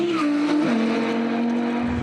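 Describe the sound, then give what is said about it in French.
A naturally aspirated car speeds down a circuit straight at over 225 km/h. Its engine holds a loud, steady, high drone and steps down slightly in pitch partway through. “Oh là là là, la voiture se place bien sur les freins. C'est ça qui est très bon. La ligne droite du circuit de trap avalée à plus de 225 km/h.”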